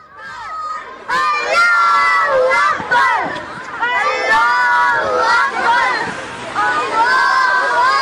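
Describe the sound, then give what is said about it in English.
Group of children chanting in unison as they march through a street in England, loud high-pitched shouted phrases repeated in bursts with short breaks between them, over a murmur of crowd noise. “That's the sound of children marching through a street in England chanting Allah Akbar, Allah Akbar.”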